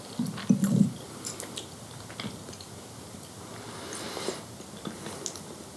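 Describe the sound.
Someone chews dried fruit with a raisin-like taste, making soft, faint, irregular squishy ticks. A brief louder vocal murmur comes near the start.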